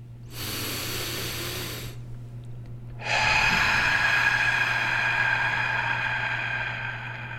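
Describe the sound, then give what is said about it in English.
Deep breathing comes as two long rushes of breathy air separated by a short pause. The second is louder and lasts much longer than the first, with no talk. “So 3 deep breaths on 3. 1, 2, 3.”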